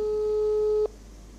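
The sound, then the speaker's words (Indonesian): A steady telephone line tone sounds on a call placed to a local radio station presenter. The single even, mid-pitched tone holds for almost a second, then cuts off abruptly, leaving only faint line hiss. “ada Radio RG yang memancar luaskan, kita hubungi dulu untuk berinteraksi dengan penyiar yang ada di sana”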